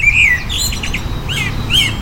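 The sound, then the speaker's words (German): Eurasian blackbird song: a few short, clear whistled phrases, bright and fairly loud, over steady low background noise. “Die Amsel, das finde ich ganz nett, ist bei uns die Nummer 1.”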